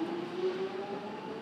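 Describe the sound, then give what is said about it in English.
A train running on the line toward Stratford, a steady rumble carrying a sustained whining tone that drifts slightly upward in pitch, even and unbroken throughout. “This train terminates at Stratford.”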